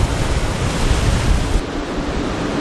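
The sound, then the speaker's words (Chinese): Rough sea surf and strong wind roar through a bay during a typhoon, a dense, continuous wash of noise. It is louder for the first part, then eases slightly but keeps rushing without pause. “因为台风影响，这一天的海龟湾内风大浪急”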